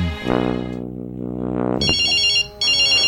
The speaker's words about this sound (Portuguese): É a mulher ligando lá de casa.